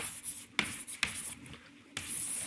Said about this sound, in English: Now, let's write that down.